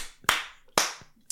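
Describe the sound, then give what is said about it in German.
Three sharp hand claps, evenly spaced and loud, are used to work a clap switch in an apartment. Each clap trails off briefly into quiet. “Ich schlaf wieder und du klatschst wieder.”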